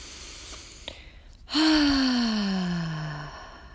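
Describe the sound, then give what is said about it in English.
A deep breath in through the nose and out through the mouth. A quiet, faint intake gives way to a long voiced exhale, a sighing breath that starts abruptly and slides steadily lower in pitch for nearly two seconds. “We're going to start with our first breath, in through the nose, out through the mouth.”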